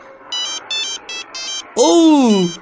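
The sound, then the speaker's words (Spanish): Electronic ringtone of a telephone signalling an incoming international call: four short trilling bursts in an even rhythm, followed by a person speaking. “Esto será una llamada internacional. Ok, contesto entonces.”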